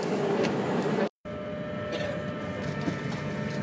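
Steady low rumble and hum of a train heading for Brussels Midi Station, continuous throughout apart from one brief drop to silence early on.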